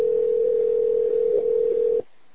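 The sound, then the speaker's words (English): A telephone sounds with one steady, loud, mid-pitched electronic tone held for about two seconds before cutting off abruptly into near silence. “I don't know where that phone call ringing is coming from.”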